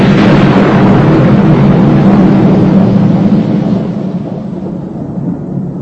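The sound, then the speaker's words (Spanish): Thunder rolls as a long, loud, deep rumble that holds steady for about three seconds and then gradually fades away, with no other sounds. “y hubo trueno, voces y relámpagos, y un gran terremoto.”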